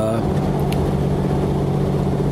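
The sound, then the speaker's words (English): Road traffic passes a moving car on a busy road, heard as a low, even rumble of engines and tyres that stays steady for the whole stretch. “If I sound distracted, there's a lot of traffic on this road I'm on, and I'm getting closer to the exit where I would turn off if I were to go home.”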